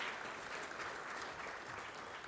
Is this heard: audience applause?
yes